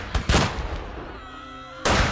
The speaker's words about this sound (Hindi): तभी अचानक एक भारी गोली चलने की आवाज आती है